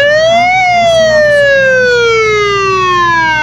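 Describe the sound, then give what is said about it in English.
A fire truck siren wails loudly and continuously. Its tone climbs briefly, then sweeps slowly downward over several seconds, with a low vehicle rumble beneath. “That's what it reminds me of, and there's another fire truck.”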